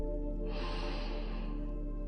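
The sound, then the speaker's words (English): A single deep breath drawn in through the nose during a guided breathing exercise, an airy rushing inhale lasting about a second over a steady low drone. “Inhale, fill up.”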